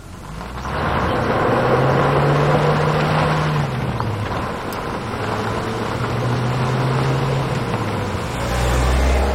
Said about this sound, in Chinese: 开车呗。